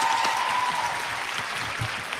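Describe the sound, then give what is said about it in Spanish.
Applause from a studio audience during a chatty entertainment show, steady and even throughout, with no single clap standing out from the wash. “Un aplauso para Marina Reche también.”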